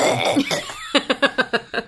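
Mock coughing by a person pretending to hack up an air filter: a rough throaty rasp, then a rapid, even run of short, harsh hacking bursts, fairly loud and alone.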